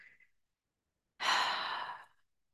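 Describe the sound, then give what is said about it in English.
One soft, airy breath taken during a guided heart-centering meditation. The breath lasts about a second and is heard alone after a brief faint sound and a stretch of silence. “Taking a breath. Taking a breath.”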